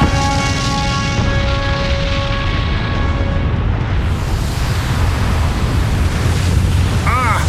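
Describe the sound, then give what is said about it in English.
An avalanche set off by a detonation in a Dalek audio drama roars as a loud, continuous rumble. A sustained humming tone sits over it early on and fades out partway through. “You've created an avalanche. How ingenious.”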